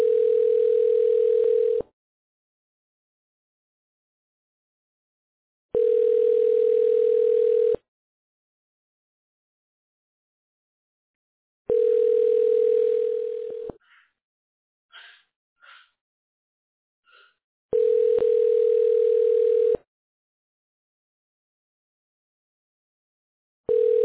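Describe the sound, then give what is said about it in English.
Telephone line tones while a call is being connected: four long, steady low-pitched tones of about two seconds each, separated by silent gaps with faint scattered noises in one of them, and a fifth tone starting at the very end. “hold while I try to connect you.”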